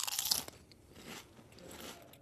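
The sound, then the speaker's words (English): Crunching of a Lay's reduced salt potato chip: a dense burst of crisp, crackly bites in the first half-second, followed by softer, duller chewing crunches. “I started with the plain old Lay's reduced salt chip. Okay. Tastes like a potato chip.”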